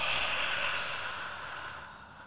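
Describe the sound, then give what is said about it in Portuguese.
A long, deep exhale after a held breath in a mindfulness breathing exercise: a steady, breathy rush that slowly fades over about two seconds. “Segura o ar, segura o ar, segura o ar, segura o ar. E, e solta fundo.”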